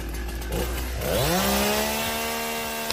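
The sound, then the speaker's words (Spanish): A chainsaw revs as firefighters cut branches off trees after strong wind gusts. Its loud engine whine climbs in pitch, then settles into a steady, continuous drone. “las fuertes rachas de viento que obligaron a intervenir a los bomberos, sobre todo cortando ramas de los árboles y retirándolas de las calles”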